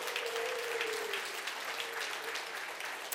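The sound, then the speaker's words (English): Steady applause for the women serving breakfast at a men's gathering, with dense clapping held at an even level for the whole stretch. “Hey, can we give it up for the ladies who are serving us this morning?”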